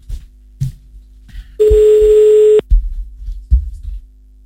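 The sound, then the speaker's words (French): A telephone call being placed: one steady, clean telephone tone holds for about a second, framed by scattered clicks and handling knocks before and after. “Allez, c'est bon, on appelle Flo.”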